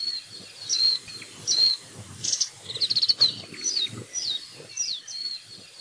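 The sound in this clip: Small green-and-gray white-eye birds in Hawaii give many quick, high, thin chirps and twittering calls in irregular bursts over a soft, low, rustling background.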